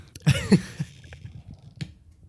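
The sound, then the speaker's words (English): A wine bottle is opened while its crumbling cork is worked loose: a short, rasping, creaking burst, then a few scattered faint clicks and scrapes with quiet gaps between. “Thank God we said wine opening. Oh, Jesus, that cork is destroyed.”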